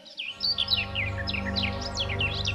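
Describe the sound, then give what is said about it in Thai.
A flock of weaver birds chirps and calls in many quick, high, bright notes over a steady low hum, continuous and fairly loud throughout. “กว่าที่นกบนต้นไม้จะหลงกลคิดว่ามีนกพวกเดียวกันร้องเรียกให้ลงมากินอาหาร”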